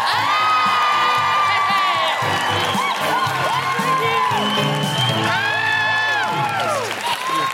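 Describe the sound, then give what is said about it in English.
Loud applause and cheering from a live comedy audience in Glasgow welcoming a comedian onstage: dense, sustained clapping with many high whoops and shouts swooping up and down, steady and unbroken throughout. “Put your hands together and make incredible Glasgow welcoming noises for the wonderful Alison Spittle.”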